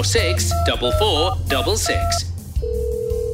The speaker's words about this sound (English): Should we call them to check when they're open? Dialing Harborough